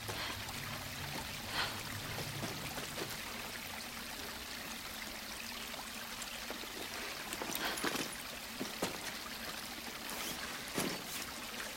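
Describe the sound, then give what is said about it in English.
Water flowing through a damp fissure in the rocks, a faint, steady rushing wash dotted with occasional brief splashes and drips. “Got washed out by the water last time. I can't go down there. The water's flowing.”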